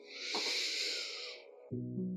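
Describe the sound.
A deep breath, a long soft airy hiss lasting more than a second, followed by the onset of a calm voice.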